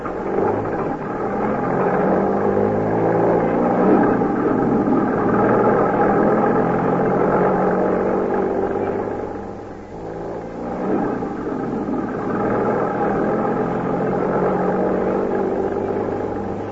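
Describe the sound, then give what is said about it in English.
A car being driven produces a continuous low engine rumble and road drone that holds steady for the whole stretch, dipping briefly about two-thirds of the way through before returning. “Keep driving a while. You're doing fine.”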